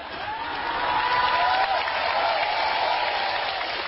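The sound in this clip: Applause from an audience at a lecture, a dense, steady wash of clapping that holds at an even level for the whole stretch, with a faint thin whistle-like tone drifting through it.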